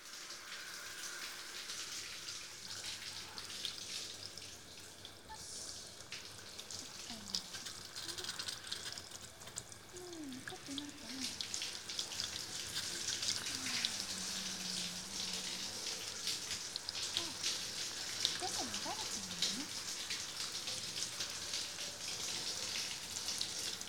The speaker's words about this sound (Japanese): はーい、流しますからね。目は閉じていてください。かけるよ。